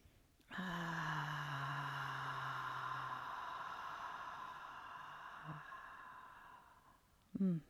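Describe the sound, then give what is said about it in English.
One deep breath taken during a guided breathing exercise, long and airy with a faint voiced tone, sustained for several seconds and slowly fading, followed by a brief sound at the end. “And last one. Big inhale.”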